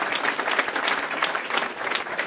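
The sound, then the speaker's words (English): Audience applause for a panel discussion: a dense, steady round of clapping from many hands that holds at an even loudness from start to finish, with no talk over it. “How about joining in a round of applause for a great panel?”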